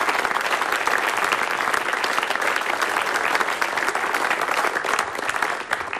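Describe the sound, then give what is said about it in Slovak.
At a music award ceremony, an audience applauds the music makers with continuous, dense clapping that stays loud and steady and eases off slightly near the end. “Takže všetkým, ktorí hudbu tvoria, tak teraz tlieskame, pretože si to naozaj zaslúžia.”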